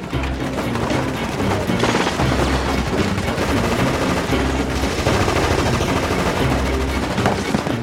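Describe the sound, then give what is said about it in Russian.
Machine gun fire from soldiers in a film sound effect, shooting down from ravine banks at a column while rebels fire back: loud, dense, continuous bursts of rapid shots with heavy booming, and no voices. “По колонне сверху, с берегов оврага, солдаты ведут плотный пулеметный огонь. Повстанцы отстреливаются”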